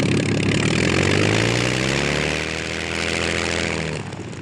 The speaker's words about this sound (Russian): Самолеты двойками приземляются.